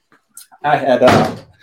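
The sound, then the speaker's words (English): A door is pushed open by a dog, giving a short dull thump and clatter that overlaps a person talking. “And my dog just opened the door and my kids are out there. Sorry about that.”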